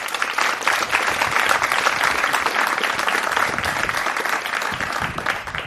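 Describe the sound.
Church audience applauding to welcome a visiting pastor, a loud, continuous wash of clapping from many people that holds steady from start to finish.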